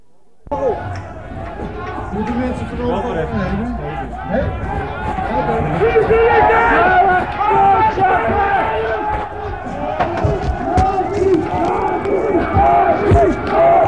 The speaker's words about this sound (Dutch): Politie voelde zich vernederd en begonnen te chargeren met platte pet en knuppels. Ze joegen mensen uiteen. Het pand werd niet ontruimd. Je hoort opnames vanuit Single 114 bij de zesde herkraak.